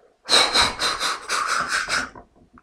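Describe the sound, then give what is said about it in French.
Breathing out in short successive puffs after a deep breath and a held pause: a breathy, hissing exhalation broken into several bursts over about two seconds, heard alone with no talk. “tu vas faire une petite pause de quelques secondes. Une, deux, trois, quatre, cinq secondes, puis souffler comme ceci.”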